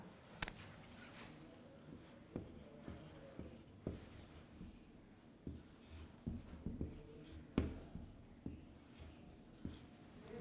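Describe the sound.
Pen scratching on paper as the Arabic letter qaf is written by hand, faint and quiet, with many short strokes and taps separated by brief pauses.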